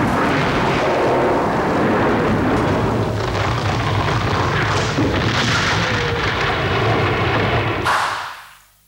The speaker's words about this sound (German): Es zischt ein Blitz durch die Decke des Palastes, ein unbeschreiblicher Donnerschlag.